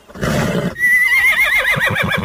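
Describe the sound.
A horse whinnies while being saddled and bridled, the saddle cinched tight and a bit being fitted. A breathy burst leads into a long, loud, quavering neigh that wavers and slides downward.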